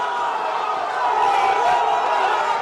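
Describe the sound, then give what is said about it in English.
Argentinian football fans cheer after their team scores, a steady roar of many voices that holds an even loudness throughout. “They cheered when they scored and immediately launched into their taunting song.”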